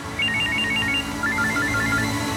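A telephone rings with an electronic melodic ringtone: two quick phrases of chirpy beeps, the second pitched lower than the first, over a steady low background hum.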